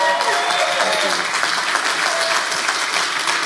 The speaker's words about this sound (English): would you please welcome, give a standing ovation welcome to Pastor Dennis Rouse this morning.